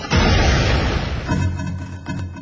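Gunfire and tank cannon explosions in a dramatized battle scene: one long, loud, roaring blast, then a few weaker bursts that rumble on.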